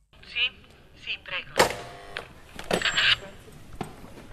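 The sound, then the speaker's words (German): The gate of the church of San Giacomo in Assisi opens with a few sharp metallic clunks and short squeaky creaks, separated by quiet gaps. “Das Tor zur Kirche San Giacomo, also St. Jakobus, öffnet sich.”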